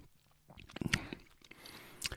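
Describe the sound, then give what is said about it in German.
A sip of a drink, heard as a short wet slurp and swallow with faint mouth clicks, followed by another brief soft burst near the end; no talk. “Schauen wir mal. Ich nehme mal einen Schluck.”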